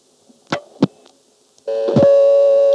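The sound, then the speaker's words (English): A telephone class of service tone sounds after dialing a vacant level from a coin phone. A few sharp clicks come first, then a steady, buzzy, harmonic-rich tone starts and holds at an even, fairly loud level to the end. “Here I call a vacant level, the class of service tone sounds, but she doesn't connect me to intercept.”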